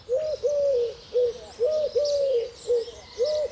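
A Eurasian collared dove coos in repeated hollow, mid-pitched phrases with a steady rhythm. Fainter, higher bird calls sound in the background.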